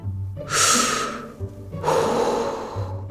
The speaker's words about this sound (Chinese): 当我生气的时候，最好静静的做点什么，比如来一次深呼吸吧